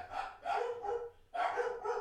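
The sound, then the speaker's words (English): Dogs barking in loud, tonal, rapid-fire bursts, with two runs of barks separated by a short pause; these are dogs being looked after in a house, set off when someone walks past the front window. “they bark all the time. They're very nice, but if someone passes by the front window, it sounds like a, you know, a blitzkrieg bomb alert.”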